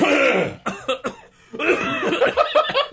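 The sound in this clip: Two people coughing and clearing their throats: harsh, raspy bursts with a brief lull near the middle, followed by more rough, phlegmy clearing and short coughs.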